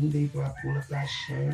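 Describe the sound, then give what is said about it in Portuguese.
A rooster crows faintly beneath steady talk, its drawn-out call running through the second half while a voice keeps speaking over it. “Olha o galo cantando.”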